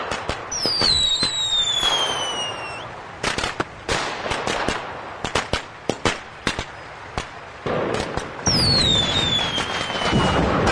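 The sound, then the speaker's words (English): A comedy sound effect of Galaxy Note 7 phones exploding: falling whistles, then a long run of rapid crackling bangs like fireworks, with another falling whistle and more bursts toward the end, loud and without voices. “And now, digitally gathering to watch Galaxy Note 7s randomly explode.”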